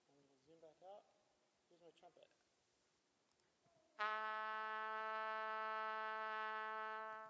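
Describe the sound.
A trumpet sustains a single A below middle C, a bright, brassy and loud held note that follows a few seconds of speech and stays steady until it stops just before the end.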